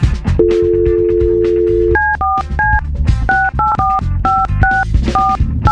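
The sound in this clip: A steady dial tone, then a quick, irregular run of many touch-tone keypad beeps as a telephone number is dialed, loud and crisp.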